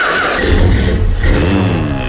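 A DeLorean car engine starting up and then running as a loud, continuous rumble with a rough, throaty low end and layered engine tones.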